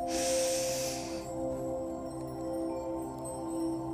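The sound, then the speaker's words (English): A long, deep inhale during a guided breathing exercise fills the first second as a soft airy rush, then fades, with steady low droning tones continuing underneath throughout. “Take another deep inhale.”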